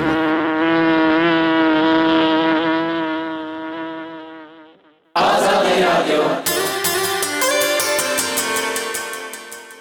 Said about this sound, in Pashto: په ژمي کې هم داسې شیان کرل کېږي چې ګل او وده کوي او مچیو ترې د خپل خوراک او اړتیا وړ شات راوړي